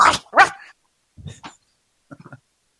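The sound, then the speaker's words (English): A person imitating a dog barking: two loud, sharp barks at the start, then a few shorter, quieter yelps after a pause. “Oh, God, I've turned into a dog again.”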